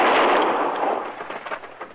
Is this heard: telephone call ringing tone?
no